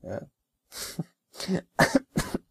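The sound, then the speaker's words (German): A person coughs five times in short, rough bursts with brief pauses between them. The coughs are fairly quiet and heard alone, with no talk around them. “das war jetzt wirklich, ich hab wirklich gehustet eben, ja.”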